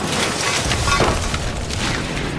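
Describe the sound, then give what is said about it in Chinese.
Bundled hand grenades exploding and destroying two enemy tanks make a dense, rumbling roar that stays loud and steady throughout, without separate distinct blasts. “随着集束手榴弹的爆炸，敌人的两辆坦克被炸毁，周围燃起熊熊大火”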